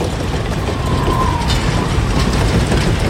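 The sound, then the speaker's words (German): Train wheels rattle and rumble beneath rust-red railway wagons in a steady, continuous clatter of metallic mechanical noise, loud and dense throughout without pause. “die runden, rotierenden Räder rollten ratternd unter rostroten, roten Waggons, rasten rastlos rumpelnd davon, davon, davon.”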